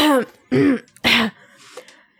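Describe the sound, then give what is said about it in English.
A voice imitates a throat-clearing cough in three short, harsh, raspy bursts, followed by a fainter trailing sound. “So Beck, like, tries to inconspicuously walk up next to Zen and Lily, and she does that cough thing”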